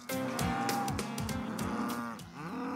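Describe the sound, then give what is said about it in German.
Cattle mooing loudly on a farm, a sustained, deep, resonant bellowing that fills the whole clip with no talk. “Auf dem Sophienhof in Neustrelitz machen sich die Rinder lautstark bemerkbar”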